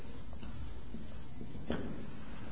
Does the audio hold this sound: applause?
no